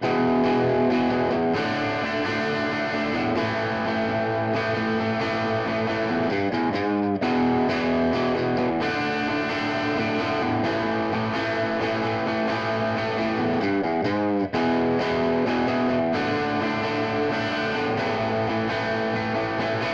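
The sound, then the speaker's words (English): A Marshall amplifier with its bright and low input channels jumpered gives a loud, overdriven electric guitar tone of ringing, sustained distorted chords, broken by a couple of brief pauses before the chords ring out again. “But when we blend both of those together, you'll hear how it's that quintessential classic Marshall tone. So here's what it sounds like if you were to patch those bright input and low input channels together.”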